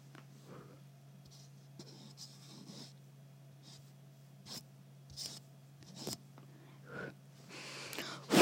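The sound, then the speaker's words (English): Soft scratching on a foot, irregular brief rasping strokes over a steady low hum, with the last strokes a little louder. “Now listen to me scratching my foot.”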